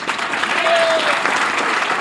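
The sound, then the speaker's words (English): Applause from an audience after a political speech in New York: a steady, dense patter of many hands clapping that holds at an even loudness throughout. “The applause lasted for quite a while.”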